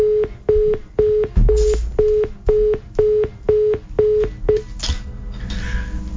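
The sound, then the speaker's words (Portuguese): Telephone line tone after a dropped call: many short, steady beeps repeat in a fast, even rhythm, with a couple of noisy bursts mixed in, and the beeping stops near the end. “caiu a ligação do José Carlos lá em Franca, São Paulo, mas nós vamos retomar a ligação para ele”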